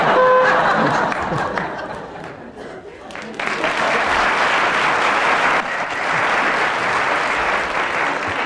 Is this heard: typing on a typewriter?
no